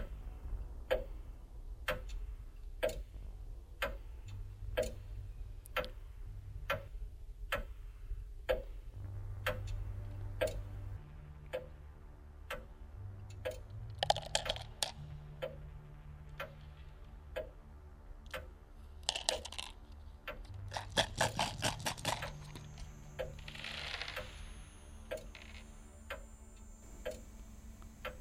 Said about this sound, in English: Listen. Listen closely. Listen to the clocks. Seems like some of them are still ticking.